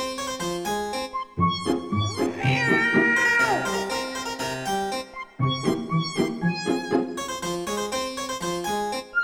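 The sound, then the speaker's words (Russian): Cat-like meowing blends into a gentle children's lullaby about two little kittens cold outdoors on a January winter night; the sustained melodic tones carry wavering mews that are strongest in the middle section. “Два маленьких котенка озябли на дворе. А дело было ночью, зимою, в январе.”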